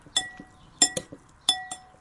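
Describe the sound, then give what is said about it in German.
A spoon clinking against a bowl while stirring a peeled carrot and algae salad, a handful of bright, sharp clinks in uneven pairs, fairly soft and with no talking. “So, jetzt nochmal gut umrühren.”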